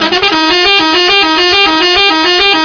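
A car horn sounds loudly and without a break, its buzzy, harmonic-rich tone stepping up and down in pitch in a repeating pattern, like a musical horn, with no voices.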